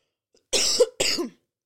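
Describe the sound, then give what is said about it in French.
Two harsh coughs in quick succession, loud and alone, the first longer with a rough throaty edge and the second shorter, followed by silence. “Je vais tousser, j'arrive.”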